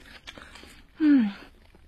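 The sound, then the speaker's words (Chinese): People chewing and eating a meal of scallion pancakes and tea eggs, with soft crunchy bites and mouth noises, then a brief hummed murmur of approval. “来来来，吃吃吃。 嗯 嗯，好吃吧？ 饿了什么都好吃。”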